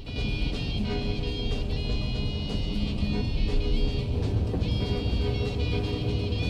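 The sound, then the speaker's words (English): A car drives along a narrow country lane overshadowed by trees, its engine and tyre noise forming a steady, dense rumble throughout with no voices. “He drives down a narrow country lane overshadowed by trees.”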